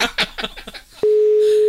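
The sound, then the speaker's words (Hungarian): A telephone ringing tone on a call that goes unanswered, a steady single-pitched electronic tone that starts abruptly and holds after a brief stretch of talk. “Haló? Vedd föl a telefon.”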